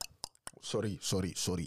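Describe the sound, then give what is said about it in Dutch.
Sharp tongue clicks imitating a click consonant, a few quick dry pops from the mouth, are followed by a person talking. “Pak je klik met de tong en dan...”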